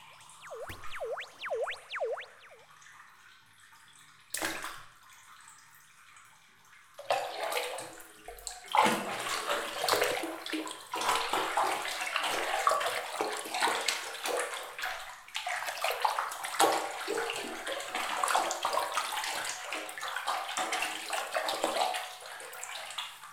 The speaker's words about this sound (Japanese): では私はお湯の準備をしてまいりますので、少々お待ちください。